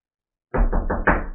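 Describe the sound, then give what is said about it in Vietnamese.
Loud knocking on the main door of a manor: about four heavy, evenly spaced knocks in quick succession, each sharp and resonant, with the last one slightly stronger. “Ngay lúc này, từ cửa chính trạch viện đột ngột truyền đến tiếng gõ cửa vang dội.”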